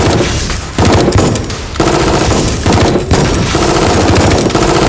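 Loud, sustained automatic gunfire in a firefight aboard a ship: dense rattling bursts fill the entire clip with only brief dips between volleys.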